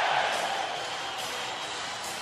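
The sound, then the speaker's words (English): A hockey arena crowd roars in a standing ovation after a San Jose Sharks playoff goal against the Colorado Avalanche in 2002. The noise is a steady, dense roar that eases slightly after the first moment. “A standing ovation. The crowd is on its feet for Owen Nolan.”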